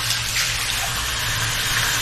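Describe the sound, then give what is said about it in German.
Warm tap water runs steadily while hair is rinsed, a continuous, even rushing and splashing hiss with no breaks or talk. “spüle das nochmal mit Warmwasser so ein bisschen nach.”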